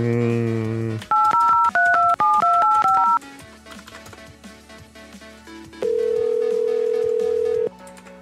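A telephone dial tone cuts off into a rapid run of keypad tones as a number for an airline is dialed. After a stretch of low noise, one long, steady ringing tone follows.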